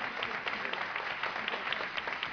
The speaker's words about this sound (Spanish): Un aplauso para él.